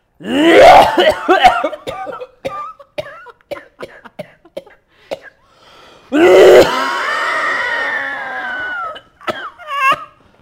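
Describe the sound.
A voice imitates an old smoker's heavy cough, like a grandfather's: a harsh opening burst and scattered rasping catches, then a second loud cough that trails into a long strained, wheezing groan and one final short hack.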